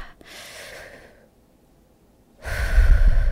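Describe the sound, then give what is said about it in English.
A deep breath: soft, airy breathing fades into a pause of near silence, then a louder, rough burst of low breath noise. “So everybody take a deep breath.”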